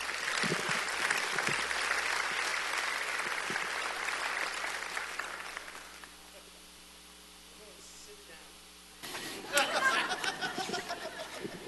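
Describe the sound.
A church audience applauds a guest pastor with dense, sustained clapping and a few chuckles, fading out after about six seconds, followed by a quiet stretch and another noisy burst.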